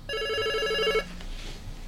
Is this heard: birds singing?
no